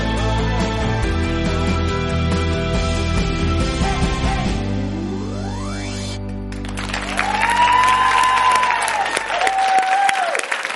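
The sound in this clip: An audience applauds the guests of a talk program at the close of their segment. The clapping sounds under music, and the music cuts out briefly partway through.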